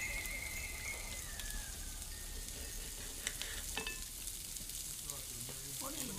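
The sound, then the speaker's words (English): Steady, loud sizzling of wet livers frying in a pan at breakfast: a continuous crackling hiss that runs without a break and with no voices. “The half-forgotten smell of blood as wet livers kiss the pan.”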